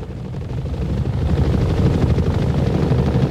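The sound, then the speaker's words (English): Helicopters approaching a bridge, heard as a loud, steady low rumble with a dense throbbing texture that swells slightly and holds for the whole stretch, with no voices. “The choppers approach the bridge.”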